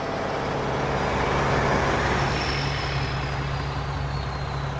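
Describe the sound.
A car pulls in and parks, its engine a continuous low rumble with steady road noise that swells slightly and then holds even, with no voices.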